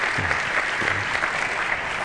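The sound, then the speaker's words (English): A church audience clapping together during a service: a dense, steady wash of applause that fills the whole stretch, with no clear talk. “Another clap offering to the Lord.”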